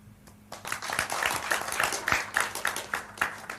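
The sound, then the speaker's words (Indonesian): An audience applauds at an evening religious gathering. After a brief quiet start, the clapping swells into dense, lively applause that carries on steadily to the end. “Baik, saya lagi aplaus untuk Bapak Kiai Kanjeng.”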